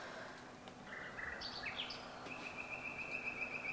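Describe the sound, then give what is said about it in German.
A nightingale sings in a run of varied whistled phrases, then a long, rapid, even trill that carries on to the end. The song sits fairly faint over a steady background hiss. “Da ist eine Nachtigall, die singt auch.”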